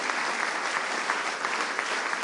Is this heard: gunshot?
no